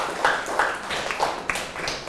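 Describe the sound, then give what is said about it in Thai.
Faint, scattered applause from a classroom praising a student, with a few separate claps popping out irregularly over a soft background rather than a full roar. “เก่งมากเลยครับปรบมือให้เพื่อนหน่อยครับ”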